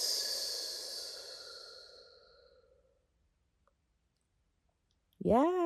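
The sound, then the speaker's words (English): Long breathy exhale after a held breath, starting fairly loud and fading steadily over about three seconds into silence, then a voice begins speaking. “Hold your breath. And exhale.”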